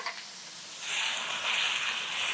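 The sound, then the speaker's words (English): Cherry tomatoes sizzling as they go into a hot pan over high heat: a steady bright hiss that swells louder partway through and keeps crackling, with no talk. “So now we're hot, we're sizzling here. I'm gonna add our cherry tomatoes. Get all the liquid out.”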